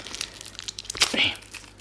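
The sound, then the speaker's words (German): Plastic foil wrapping crinkles as it is unwrapped, giving a few short, crackly rustles. The sharpest burst comes near the middle, over a faint low hum. “Ist noch ein bisschen Folie eingepackt.”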